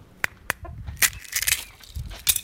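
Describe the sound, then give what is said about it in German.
Hens cluck outside in a yard where eggs are being collected: a series of short, sharp, irregular clucks, some isolated and others bunched together, heard alone with no talk. “komm, die Hühner sind gerade draußen, lass uns die Eier holen.”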